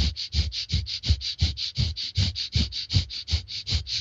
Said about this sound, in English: if you do some very rapid panting breath like this, it can be as simple as 2 minutes of rapid panting through the nose